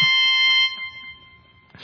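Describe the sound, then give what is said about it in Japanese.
A short electronic fanfare sound effect: a bright chord of held tones with a few quick lower notes beneath, cut off partway through and followed by a brief burst of noise at the end. “ちょっとファンファーレなど鳴らしてみましたが”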